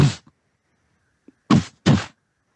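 Hollow thuds of a mace striking the floor at the center of a room while searching for a hidden latch: one heavy knock, a pause with faint small taps, then two more knocks close together.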